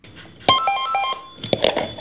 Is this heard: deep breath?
no